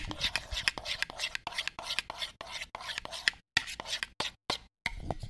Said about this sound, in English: I'm stirring up sriracha mayo, which also is known as chipotle sauce or chipotle ranch.